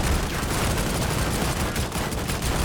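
Gunfire in a video game shooter rattles in a dense, rapid, continuous barrage, loud and sustained across the whole stretch.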